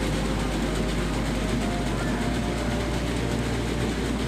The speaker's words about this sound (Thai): เครื่องนี้คือเครื่องตีเกล็ดครับเกล็ดมันถูกขอดด้วยการตีออกตอนนี้นั่นเองคือปลามันตัวเล็กอ่ะจะให้ไปขอดเกล็ดทีละตัวคือยากลำบากมาก